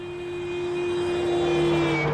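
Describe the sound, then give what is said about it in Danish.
A car speeds past on a road, its steady engine hum swelling gradually in loudness over a couple of seconds. “Og så drøner bilen forbi.”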